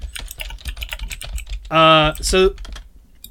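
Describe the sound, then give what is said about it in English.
Rapid typing on a computer keyboard, with many quick, light key clicks in an irregular rhythm and a brief tonal hum partway through. “Yeah, I can type that up.”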